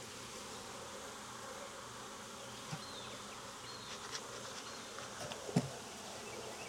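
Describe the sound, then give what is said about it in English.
Honey bees buzz around an open beehive during a hive inspection near the supers, a faint, steady droning hum with a few brief louder ticks and flickers as individual bees pass close. “We're kind of over here on the end of the hive where is they would have the vertical access to the supers.”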